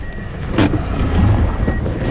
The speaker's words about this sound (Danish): Rundt om os farer civile afghanere i deres ramponerede bil i høj fart forbi